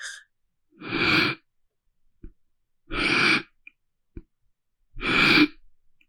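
Deep, slow breaths taken during a yogic breathing exercise, three clear airy breaths spaced about two seconds apart, each separated by near silence and a few faint clicks.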